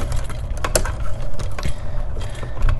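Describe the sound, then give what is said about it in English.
Gritty creaking and scraping as a green wire nut is twisted back down and retightened over ground wires while wiring a plug-in receptacle, a steady friction sound without pauses. “So now that I've got all that done, I'm going to slide my green wire nut back down, retighten.”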